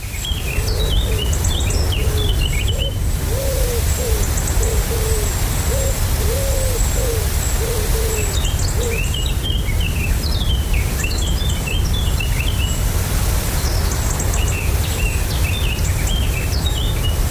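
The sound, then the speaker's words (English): Summer birdsong from a European robin, a common wood pigeon and a Eurasian blackcap. Low, repetitive cooing phrases run beneath higher, quicker warbling and trilling songs, over a constant background hiss. “this one contains the European robin, the common wood pigeon, and Eurasian blackcap.”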